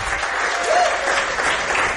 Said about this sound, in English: How about a round of applause for our head coach, Eli Drinkwitz?